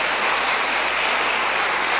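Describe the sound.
Applause after a debate speech: a dense, steady wash of clapping that holds at an even level for the whole stretch, with no voices over it.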